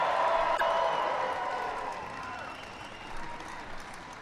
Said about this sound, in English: maybe before you have a seat, give it up for the Super Bowl champion New England Patriots.